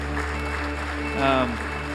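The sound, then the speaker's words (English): Applause from an audience welcoming first-time visitors: a short, steady burst of clapping at an even level that swells slightly toward the end. “Now, in fact, let's give them a hand. Those that are here for the first time today, we're glad you're with us.”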